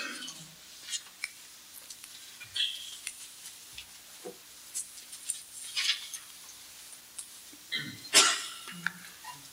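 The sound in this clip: A single sneeze during a religious lesson: one sharp, loud burst near the end, standing out from faint scattered clicks and rustling.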